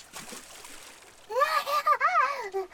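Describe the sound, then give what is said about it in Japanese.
Water splashes up after a large rock is thrown in, a brief hissing wash of spray, followed by a voice crying out over it. “水が、水しぶきがゆきさんを襲う。冷たい。”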